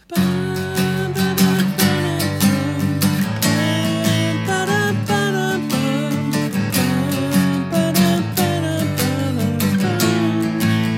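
Instrumental music carries a melody over a chord progression with no lyrics or vocals. The layered tones hold a steady, full loudness, and regular rhythmic attacks run through the passage.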